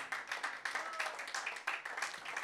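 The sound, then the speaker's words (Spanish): Congregational clapping during a church service, offered as applause to the Lord: a faint, steady patter of many hands with soft recurring swells of intensity throughout. “Démosle ofrenda de palmas al Señor en esta bendita hora.”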